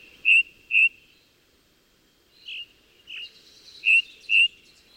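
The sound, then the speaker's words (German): A ring ouzel sings on the Brocken, where the forest ends near the summit. Six clear, repeated whistled notes fall in pairs with quiet gaps between, bright and alone against faint background noise. “Allerdings müssen sie schon sehr früh aufstehen, denn die Ringdrossel singt am liebsten richtig knackig früh morgens,”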